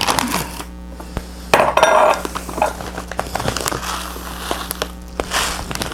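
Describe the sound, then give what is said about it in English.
Rice being measured into a bowl: light clinks and rattles, with a denser burst of rustling clatter partway through over a steady low hum, and no voices. “So, take a bowl and measure out some rice.”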